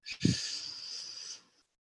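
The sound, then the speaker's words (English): Quiet breath drawn in through the mouth during a guided meditation breathing exercise: one soft, airy hiss lasting a little over a second, fading into silence. “make sure when you're releasing it out your nose that you're keeping your mouth closed. So in through your mouth.”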